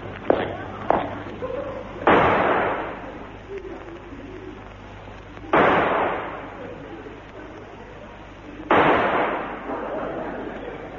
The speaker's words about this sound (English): Now back to back. 3 paces, and then we fire, monsieur.